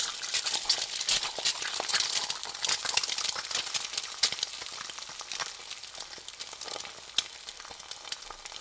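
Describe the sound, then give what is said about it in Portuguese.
Sizzling of shredded chicken, finely chopped bean sprouts and onion frying together in a giant pan: a loud, dense, steady crackle of spitting oil that continues throughout, with no talking. “Agora é preciso desfiar a galinha, cortar em milhares de partes cada rebento de soja e fazer o mesmo com a cebola. Depois, juntar tudo numa frigideira gigante.”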